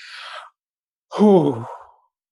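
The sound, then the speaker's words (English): A deep breath, heard alone: a short airy inhale, a brief pause, then a longer, louder exhale that becomes a voiced sigh and fades away. “And so I'm going to take a deep breath, and I'm going to invite all of our beautiful listeners to just take a deep breath with me”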